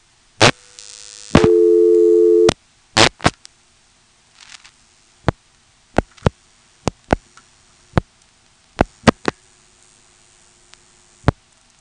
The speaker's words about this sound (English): picking up the phone, giving a nice long flash, and the flash effectively drops the director out and dials a 1, and then dialing the long distance call.